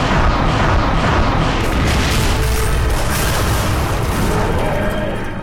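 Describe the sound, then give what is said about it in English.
A special weapons cyborg fires a heavy sci-fi weapon in an audio drama effect: loud, dense booming blasts with a deep rumble run continuously, staying forceful throughout and easing only slightly at the end. “There's several special weapons Daleks in it, and they sound really meaty.”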